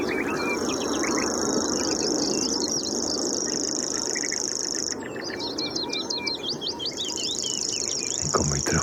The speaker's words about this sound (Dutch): Punt en er zit nog steeds die sprinkhaanzanger heerlijk te ratelen.